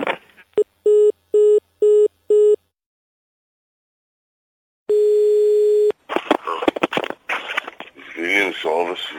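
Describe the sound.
A telephone busy tone after hanging up: five short, evenly spaced beeps at one steady pitch. A pause follows, then a single longer steady tone, and then talk.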